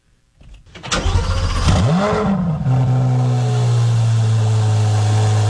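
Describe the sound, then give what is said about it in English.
A Corvette's engine cranks and catches, its pitch swooping up briefly before settling into a steady, loud, deep idle rumble with no talk. “Well, you're riding the Corvette, you know.”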